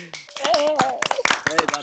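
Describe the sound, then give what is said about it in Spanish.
Applause in a busy moment, with quick hand claps mixed into loud overlapping voices that call out over the clapping for just under two seconds. “El aplauso, por favor.”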